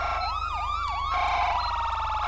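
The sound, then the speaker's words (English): Police car siren in a video game fitted with an emergency-lighting mod: a loud, fast wail that sweeps up and down through a few quick cycles, then changes to a steadier, more constant tone, alone and continuous. “That's the cop siren.”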